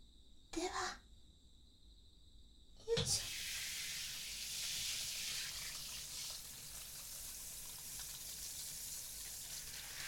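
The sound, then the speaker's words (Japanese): Water poured to rinse, heard as a couple of brief knocks followed by a sudden, steady broad hiss of flowing water that runs on evenly at a fairly quiet level. “それでは流します。目はつむっててくださいね。”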